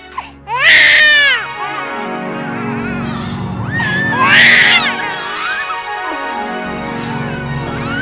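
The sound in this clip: Newborn twin babies crying: high, piercing wails rise in two strong bursts and carry on more faintly in between, over a steady low background.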